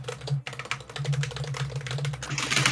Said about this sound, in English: I'm just typing up your notes, Trainwreck, for Mr. Scobie.